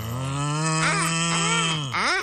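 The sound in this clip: A voice imitating a pig grunting makes one long, low, buzzing groan that holds steady and wavers slightly, then dips and ends in a short rising call.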